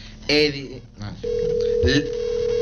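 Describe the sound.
A telephone call to a listener: after brief talk, a steady phone line tone sets in and holds one unbroken pitch to the end.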